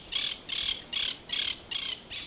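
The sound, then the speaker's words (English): Monk parakeets, a parrot species native to Argentina and southern Brazil, squawk six times in a steady, evenly spaced series. Each call is a harsh, raspy, high burst, loud and heard alone. “the monk parakeets originate in Argentina and southern Brazil, where they're pests to farmers.”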